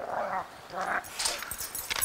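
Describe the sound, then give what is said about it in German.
Wolves at a daily hand-feeding whine and yip, giving a few faint, tonal whimpers followed by higher, sharper yips in short bursts, with no talk. “Es findet täglich Wolfsfütterung statt. Also ich füttere zuerst mal die Wölfe.”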